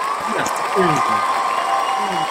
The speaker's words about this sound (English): And they have some stuff here. Like, they have the cheering thing, news, like,